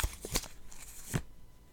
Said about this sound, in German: Und ich mache den Zettel auf.